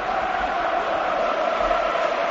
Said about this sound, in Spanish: Y le sigue el Bernabéu con tímidos aplausos de momento.